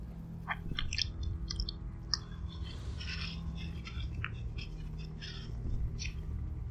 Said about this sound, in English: The more I lick, the hungrier I get.